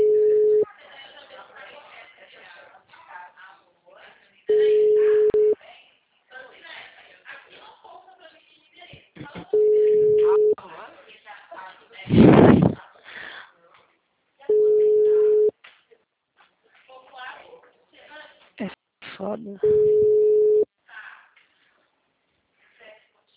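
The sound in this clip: Steady electronic telephone tones after a call is hung up: four beeps at one fixed pitch, each about a second long and evenly spaced. Voices talk quietly in the gaps between them.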